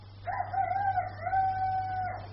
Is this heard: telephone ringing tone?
no